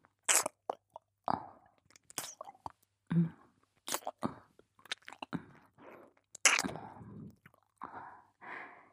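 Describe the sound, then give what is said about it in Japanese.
Wet tongue licking and slurping along the grooves of an ear, a long run of many short, crackly mouth sounds with a squishy, crunchy texture, some louder than others, with no talking. “耳の溝に舌をはわせて、舐めとるように。”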